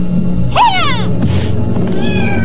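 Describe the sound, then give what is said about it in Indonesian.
A cat shrieking as it is struck in midair: a shrill yowl that leaps up and then slides down, followed by a fainter, thinner cry near the end, all over a steady low background hum. “Terdengarlah cerikan kucing itu melengking dengan sangat mengerikan.”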